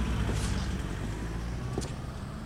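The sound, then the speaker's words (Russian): A car drives away with a steady, low engine rumble and road noise that eases very slightly over a couple of seconds, fairly quiet throughout. “Парень садится в машину парня Шейлы, уезжает.”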